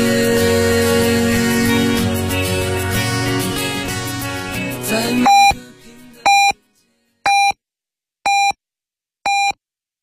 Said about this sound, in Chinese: 北京时间零点整